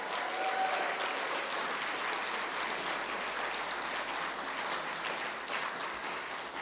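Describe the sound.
Audience applause fills a religious gathering, a dense, even wash of clapping that holds steady throughout with no voices over it.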